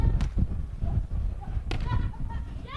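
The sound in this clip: A beach volleyball is struck on a serve during a match, giving sharp slapping hits and duller thuds beneath continuous commentary.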